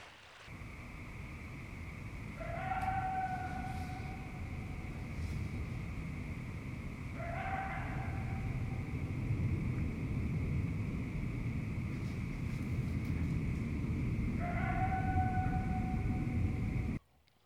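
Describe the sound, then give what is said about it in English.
A baby coyote gives three short, high, wavering cries, well spaced apart, over a steady rushing background noise that lasts the whole time. “Although some people may find this cry of a baby coyote unsettling, or perhaps even scary”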